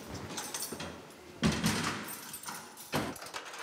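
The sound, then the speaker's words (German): Keys lock a door inside a prison. Two sharp metallic clunks of the lock and door stand out over low rustling, and no one speaks. “Können Sie abschließen, bitte? Mach ich.”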